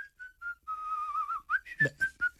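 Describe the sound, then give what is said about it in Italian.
A person whistles a short, light tune: a few quick notes, then a longer wavering held tone, then several brisk, clipped notes in a bright, high register, all without any talking. “qualcuno che fischia”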